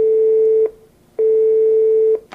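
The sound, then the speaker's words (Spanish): Telephone tone heard while placing a call: two steady, low, buzzing tone bursts separated by a short silent gap. The tone is loud and even, with no talking. “A ver, espera un poquitín, que llamo a ver...”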